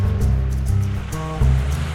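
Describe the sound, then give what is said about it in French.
Low, rolling rumble of ocean swell recorded underwater in the Bay of Dakar, a steady loud surge with slow swells in the low range and no voices. “La houle, elle est là.”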